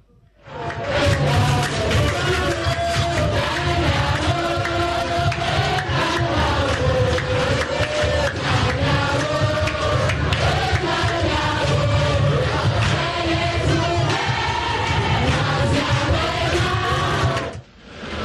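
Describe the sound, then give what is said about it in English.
Students in a school auditorium chant and cheer a jama during a quiz competition: loud, dense, continuous group voices with a rhythmic sung quality, holding steady for about seventeen seconds before cutting off. “I can see that they're, you know, doing some jama. If we can just get a sound up a bit for that jama for our audience on the radio.”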